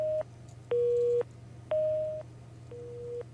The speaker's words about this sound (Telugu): Hello phone line cut అయినట్టుంది.